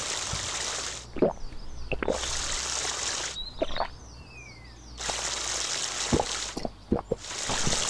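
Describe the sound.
Water pouring and splashing during wudu ablution, including rinsing the nose. Several stretches of running, hissing water alternate with pauses that hold drips and plops.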